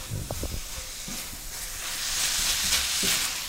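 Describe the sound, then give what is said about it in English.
Brussels sprouts sizzle in a hot pan as mustard dressing is added and tossed through, giving a broad, hissing fry. A few soft low knocks come early, and the hiss swells louder in the second half. “I'm going to add my dressing, that mustard dressing. I'm going to toss that around.”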